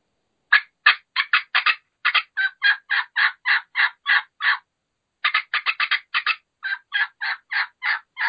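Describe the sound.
A turkey call imitates a hen with quick bursts of sharp cuts that run into evenly spaced yelps. After a brief pause, another rapid flurry of cuts leads into a second steady run of yelps, all clear and fairly loud with no talking.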